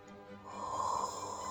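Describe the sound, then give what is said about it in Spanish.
A slow, deep inhalation is taken during a guided relaxation exercise. The breath is a faint, rough, airy draw that builds gradually and holds steady toward the end. “Vuelve a inhalar.”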